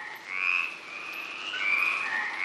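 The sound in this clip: A toad croaking in one continuous high trill that swells and eases slightly but never stops, heard alone over a faint background hiss.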